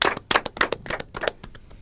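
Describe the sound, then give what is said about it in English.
Scattered clapping from a studio audience applauding guests. The claps are sparse, sharp and irregular rather than a dense ovation, at moderate loudness with no voices. “Let's give a round of applause for our guests.”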